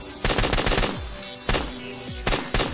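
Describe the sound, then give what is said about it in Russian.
Automatic gunfire comes in several short, loud, rapid bursts separated by brief pauses, with sharp cracking reports and no voices. “В спину снова ударили пули.”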